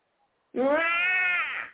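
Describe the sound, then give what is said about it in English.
A human voice imitates a hungry cat meowing: one long, drawn-out, nasal mew that starts suddenly, holds a steady pitch and fades at the end. “Rah! Rah! Feed me. Meow, feed me.”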